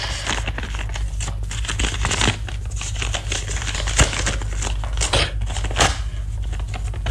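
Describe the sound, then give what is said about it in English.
A thick, bulky paper envelope is torn open with continuous crinkling and rustling, a steady crackle throughout with a few sharper snaps standing out, no voices. “There are two envelopes. Open the rather thick, bulky one. Well, go on, there's nothing in it that can bite you.”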